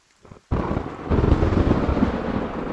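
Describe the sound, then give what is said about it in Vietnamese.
Thunder from a storm at night breaks in with a sudden heavy crack after a faint moment of near quiet, then rolls on as a loud, sustained low rumble that swells and lingers. “Sấm sét lại vang lên. Lần này tiếng sấm đã mang đi sự an toàn duy nhất trong căn nhà.”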